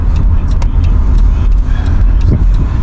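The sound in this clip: Steady rumble of a borrowed minivan driving, a loud, continuous low engine and road drone with a few faint higher noises scattered over it.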